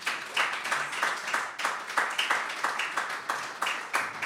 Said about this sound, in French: Est-ce qu'on peut acclamer très fort Jésus de Nazareth